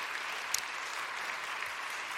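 Steady audience applause welcoming the administration of Landon Middle School, a continuous, moderately loud patter of many hands clapping with no breaks.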